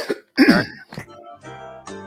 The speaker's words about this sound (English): Oops, you missed the cough button there